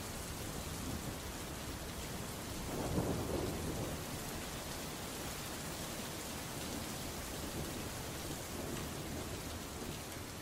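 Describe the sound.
Lashing rain in a thunderstorm gives a constant, soft hiss of rain, and one low rumble of thunder swells early on before fading back into the rain.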